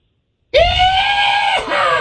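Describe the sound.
A person imitating the whooping scream a driver let out while jumping a Dodge Charger: one loud, sustained, high-pitched yell that starts abruptly and holds steady for about a second and a half, with a brief break near the end.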